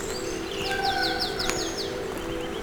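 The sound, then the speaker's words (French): Birds sing near a jumble of rocks: a quick series of short, high, repeated chirps with a few other faint calls over a steady low background noise. “je suis plutôt agréablement surpris par les nombreux chants d'oiseaux.”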